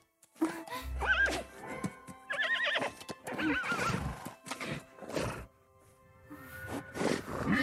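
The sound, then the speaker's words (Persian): A small horse neighs in several shrill, quavering whinnies, mixed with clip-clopping hooves and brief rustling movement. “سلام اسب کوچولو.”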